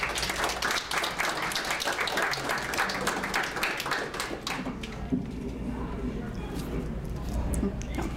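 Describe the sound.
An audience claps to welcome a speaker to a talk on blood and plasma donation. The dense applause fades out over several seconds, then a voice starts speaking.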